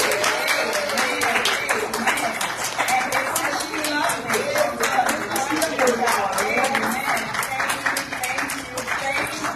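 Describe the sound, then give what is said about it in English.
A church audience gives a round of applause for a woman being honored. Many hands clap in a steady, rhythmic patter while voices talk over it. “Give her a round of applause, family. Come on, everyone.”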